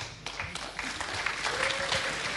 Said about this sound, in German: Wie, da klatscht ihr?